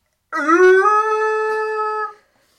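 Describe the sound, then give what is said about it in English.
A person's voice imitates a Bigfoot yell: one loud, sustained howl of about two seconds that climbs briefly at the start, then holds a steady tone before cutting off. “That was my failed attempt of doing a Bigfoot yell.”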